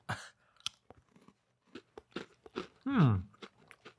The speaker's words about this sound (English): they're like tiny Christmas trees, tiny biscuity Christmas trees.